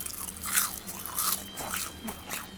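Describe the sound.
Crisp crunching as someone bites into and chews a deep-fried asparagus skewer with a battered crust and juicy inside, a few sharp, quiet crunches spaced through the moment without talk.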